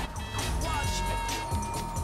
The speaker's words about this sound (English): Traffic zooms past the famous Flatiron building.